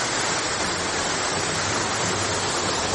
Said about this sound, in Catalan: El salt del Molí de Salgueda, que és una cascada d'uns 20 metres d'alçada que en dies de molta aigua sona així,